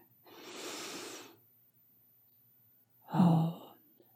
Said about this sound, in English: And exhale through your mouth.